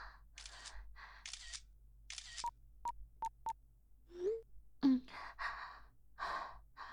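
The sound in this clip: Camera shutter taking a photo: four sharp, quick clicks in a row, set among soft breathy sighs and gasps.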